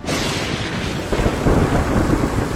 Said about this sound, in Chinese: 天空被闪电划破，暴风雨以不可预估的速度一会儿出现一会儿消失